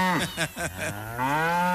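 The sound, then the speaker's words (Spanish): A cow moos while being milked, giving a few short, throaty pulses that run into one long, steady, low moo, fairly loud and with no talk over it. “A ver, por acá vamos a ordeñar un ratico a Lolita. Lolita, siéntese acá.”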